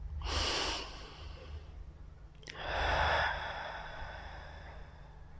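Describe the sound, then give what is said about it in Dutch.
Deep breathing during a guided relaxation exercise, in through the nose and out through the mouth: two slow, airy breaths separated by a quiet pause, with a small click before the second breath and a faint low hum underneath. “En adem een paar keer wat dieper in en uit.”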